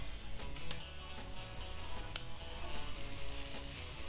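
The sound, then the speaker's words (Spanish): Bacon and onion fry in about two tablespoons of hot oil in a pan, a continuous loud sizzle scattered with sharp crackling pops and no talk. “Primero vamos a poner a calentar el aceite, aproximadamente unas dos cucharadas. Vamos a freír ahí un poco de cebolla. Ya que está la cebolla, agregamos el tocino.”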